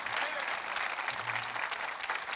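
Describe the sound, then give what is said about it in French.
Audience applause at a church gathering: dense, steady clapping that fills the whole clip at an even level, with no pauses or swells. “Pouvez-vous applaudir cette vision?”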